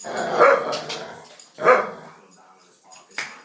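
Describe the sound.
A dog barks viciously as it jumps up in someone's face. A few sharp, aggressive barks and yips burst out, with quieter rough growling in the gaps between them.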